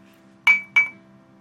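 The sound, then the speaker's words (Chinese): Glasses clinking in a toast: two bright, ringing clinks in quick succession, each leaving a high sustained tone over a faint steady hum. “干杯！”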